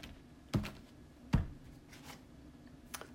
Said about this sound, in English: Let's get some more cards out for you.